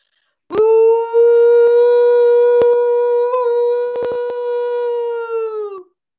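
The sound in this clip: A loud whoop from a person imitating a Sasquatch call: one long, steady, strongly voiced tone held for about five seconds before it tapers off, with a few faint clicks.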